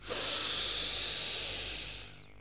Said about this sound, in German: Wie viele Züge habe ich getan? 3 volle Atemzüge